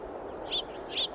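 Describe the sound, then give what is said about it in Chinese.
Eurasian tree sparrows calling from a flock nesting in salt-weathered holes in red canyon cliffs in spring: two short, bright chirps over a steady low background hiss. “每到春天，成群的树麻雀就会来到这里产卵育雏。”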